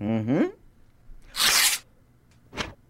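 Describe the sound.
A brief voice, then an envelope torn open: a longer, harsh ripping stroke followed by a shorter tear, each crisp and noisy against silence.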